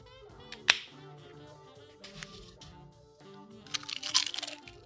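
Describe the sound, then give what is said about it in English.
Crunching on chips, several at once: a sharp crisp bite, then a cluster of crackly crunches near the end, over steady music in the background. “This is ASMR. Nice. How's that chip? Those chips, multiple chips. It's not like you just put one chip in your mouth.”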